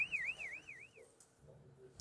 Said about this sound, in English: Costa Rican rescuers were forced to quickly exit from the rubble of a severely damaged building in Playa Grande when the alarms were activated, warning that the building could be about to collapse.